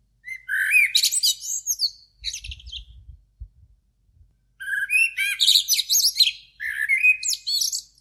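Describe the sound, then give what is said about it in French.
Blackbirds singing in a city before dawn: bright fluting, warbled phrases in a loud burst, a short pause with a few soft low thumps, then more lively song, with no voices. “Il fait encore nuit. J'écoute les premiers merles chanter.”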